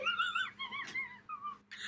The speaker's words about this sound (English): Oh my fat lady wheeze is happening.